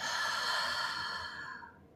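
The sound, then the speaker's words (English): A single long, airy breath from a guided breathing exercise, in through the nose and out through the mouth. The soft hiss holds steady, then fades away toward the end, with no talking. “Inhale through the nose. Exhale through the mouth.”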